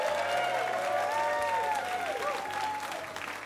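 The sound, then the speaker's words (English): Sustained applause from a live radio stage-studio audience at the Museum of Commerce in Pensacola Village, dense clapping mixed with some cheering voices, holding steady before easing slightly toward the end. “What a great audience we have tonight. Give yourselves another big hand.”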